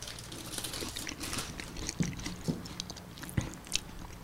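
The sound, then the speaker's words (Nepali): Crunching and chewing as someone eats a snack, a few sharp crisp bites standing out over softer continuous mastication noise, with no talking. “अलिकति भोक लाग्यो एउटा दुइटा खाउँला”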